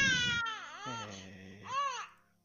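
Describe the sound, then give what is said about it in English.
A newborn baby cries in a few wavering, high-pitched wails whose pitch bends up and down, the last wail swelling louder before fading out. “My kid's awake still. Aw, newborn cries.”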